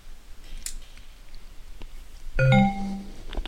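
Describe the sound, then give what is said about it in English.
A Sansa Clip Zip player gives its connect sound when plugged into a computer: after faint background noise, a brief bright electronic chime of a couple of clear tones rings out. “Okay, we're going to connect the player to the computer, and you'll hear it make the connect sound.”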